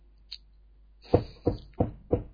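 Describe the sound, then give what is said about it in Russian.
A timid knock on a door: four soft, evenly spaced raps, each with a short hollow ring, after a brief faint squeak. “О, это какой-то скромненький стук.”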